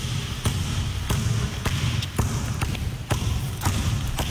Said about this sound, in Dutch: De vraag is dus, aan welke kant wil deze basketballer met bal jou voorbij lopen?